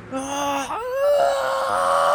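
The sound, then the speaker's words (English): Wailing and moaning voices, a crowd of people screaming, sustained and fairly loud: a long wavering cry dips briefly, then swells and holds at a higher pitch to the end. “You hear a collection of screaming. People”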